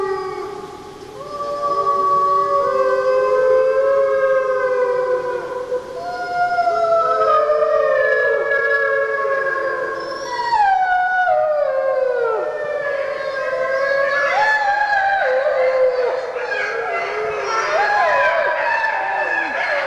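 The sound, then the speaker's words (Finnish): Pack of wild wolves howling, with many long tonal howls overlapping and sliding up and down in pitch, sustained and loud for the whole stretch. “Susilauma. Tämä on villi, niin, villisudet.”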